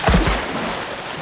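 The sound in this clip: A splash as otters jump into river water beside a holt under willow roots. One heavy burst of water comes first, followed by a steady washing swirl of water with no voices.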